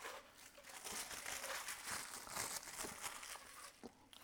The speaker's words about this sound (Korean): 하나 봉지 하나 더 뜯어